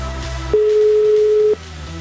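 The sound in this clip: A telephone ringback tone after dialling a number: one flat, steady beep lasting about a second, over a low background hum.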